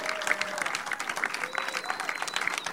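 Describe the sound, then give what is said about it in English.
Dense, steady applause from a live comedy show audience welcoming the guests, continuous clapping throughout with faint voices mixed in. “36 strong, giving it up for the guests.”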